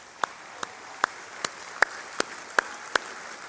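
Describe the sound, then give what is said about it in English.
Slow, evenly spaced single claps welcome a speaker onto a stage: about eight sharp, bright hand claps in a measured rhythm over a faint background hiss. “So just give him a hand as we welcome him.”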